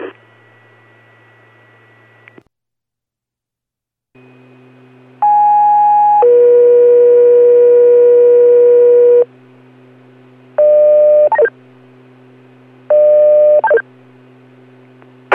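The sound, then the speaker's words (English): Fire department pager alert tones for a weekly test page in Pike County: a faint hum, then a short tone leading into a loud, long, steady tone, followed by two more brief two-part tone bursts. “North Pike Fire, weekly test page. Test page only, respond on Alpha”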